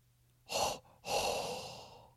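Hot breath exhaled in two breathy rushes of air, a short puff and then a longer, drawn-out exhale that trails away. Both are fairly faint, with no talking.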